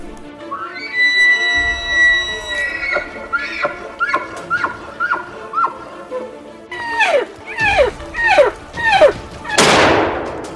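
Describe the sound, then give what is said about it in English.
A hunting gunshot lands as one sharp, loud blast near the end, after a long run of repeated high, descending calls. “Got him, dropped him. Nice shot”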